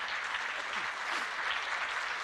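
A church audience claps their hands during worship, a faint, dense and even patter of applause that holds steady throughout with no voices rising above it.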